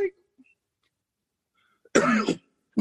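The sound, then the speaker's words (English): A person choking and coughing: one harsh, raspy burst of strained coughing follows a few faint throat sounds, with the start of another sound at the very end. “It's an actual real choke.”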